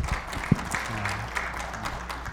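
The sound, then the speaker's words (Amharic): An audience applauding to welcome guests at a gathering: faint, steady clapping over a low hum, with a brief louder thump near the start. “መካከላችን እንግዶች አሉ። እንኳን ደህና መጣችሁ። አጨብጭቡላችሁ”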